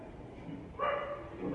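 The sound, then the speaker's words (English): A dog gives a short tonal bark-like cry that comes in abruptly partway through, followed by a second fainter one at the end, both fairly quiet over a low background hum. “The dogs are supposed to be kept out, isn't it? Is it? It's so loud.”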